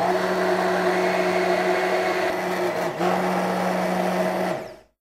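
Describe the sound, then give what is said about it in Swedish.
An electric mixer whisking eggs and sugar: a steady, fairly loud motor whine with a brief dip in pitch partway through, then the motor winds down and stops at the end. “Sen vispar jag ägg och socker.”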